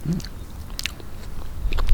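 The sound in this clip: Biting and chewing a wild garlic flower, picked fresh. A few soft, crisp crunches and moist chewing sounds, fairly quiet and with no talk.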